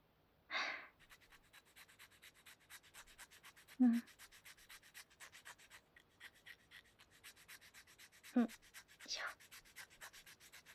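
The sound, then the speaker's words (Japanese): Rasping strokes of a file sanding a surface: many quick, regular scraping passes at a faint, even level, broken by a few louder, short bursts. “これで大丈夫そう。なら、このままこっちもヤスリを。”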